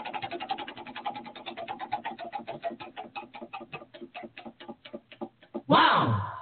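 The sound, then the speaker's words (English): A beer prize wheel being spun: a long run of sharp ticks, fast at first and then gradually slowing and spacing out, followed at the end by a sudden loud burst of sound. “Let's spin the wheel. Oh, yes. Let us spin the wheel.”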